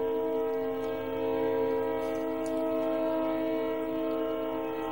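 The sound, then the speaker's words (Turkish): A passing train sounds a long, steady horn that holds one loud chord for the whole stretch over a low rumble, with no voices. “Tren geçiyor.”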